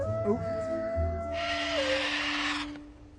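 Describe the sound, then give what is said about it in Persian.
A voice imitates a dog howling: one drawn-out, steady vocal tone that dips in pitch toward its end, while a broad hiss swells in and out over the middle. “واق واق بلدم، تازه زوزه کشیدنم بلدم.”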